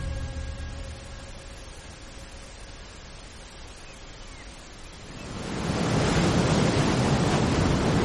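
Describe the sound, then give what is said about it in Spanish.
Sea waves crash against a grey stone cliff in a broad, hissing wash that stays fairly low at first, then swells into a much louder, sustained roar of surf over the last few seconds. “Las olas del mar golpean un acantilado de piedra grisácea.”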